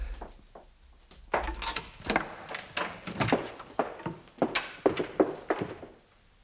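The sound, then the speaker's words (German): Footsteps of someone rushing down a staircase: many quick, irregular thuds and knocks, fairly faint, tumbling one after another without a steady rhythm. “Hast du gehört? Der ist die Treppe nur so runtergestürzt.”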